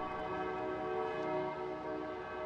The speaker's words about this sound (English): Bells toll at Port-au-Prince's main cathedral as the faithful and the powerful in this troubled country gather to pray.